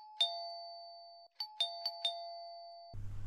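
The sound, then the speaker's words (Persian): A doorbell at a front gate rings as a clear, sustained electronic chime, one long tone followed by a quick run of four more strikes, fairly quiet, cut off by a low hum at the end. “اونه صدای زنگ دروازه.”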